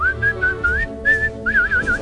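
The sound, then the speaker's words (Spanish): A person whistles a melody with a pronounced vibrato. Several clear, fairly high sustained notes waver quickly up and down, broken by brief pauses between short phrases. “ahora sí puedes silbar bien.”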